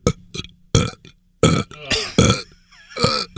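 A person burping over and over, many loud, voiced, drawn-out belches with short gaps between them, some rough and rattly, with no talk.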